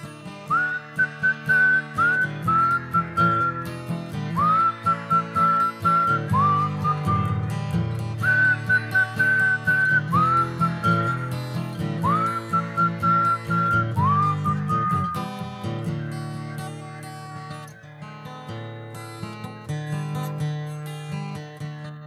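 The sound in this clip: A whistled tune from a children's song about a boy who whistles all day: bright, pure notes that slide up into each phrase, repeated over several short phrases above steady instrumental accompaniment, with no singing or talk.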